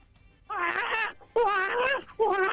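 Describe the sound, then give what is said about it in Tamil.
A human voice imitates a baby waking up and crying, giving three drawn-out wailing cries with short pauses between them, each loud and tonal with a wavering pitch. “அடுத்து குழந்தை எந்திரிச்சிருச்சு இப்ப அழுகுது, so அந்த மாதிரி ஒரு sound.”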